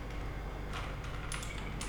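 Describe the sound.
Keys pressed one-handed on a computer keyboard at a desk: a few sparse, separate clicks over a steady background hiss, with no talking.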